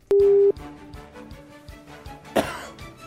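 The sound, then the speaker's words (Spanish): A telephone tone as a call is placed on air: one loud, short electronic beep of about half a second, followed by faint soft taps and a brief rasping noise. “Deme línea al aire, por favor, don Gianni Francesco. Ahí estamos llamando ya a don Tomás.”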